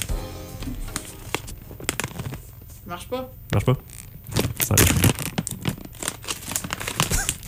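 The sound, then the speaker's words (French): A plastic bag being opened and twisted, brief crinkly rustles and crackles mixed with people talking. “Donc, je baisse la trame. Et on écoute notre beau petit sac s'ouvrir.”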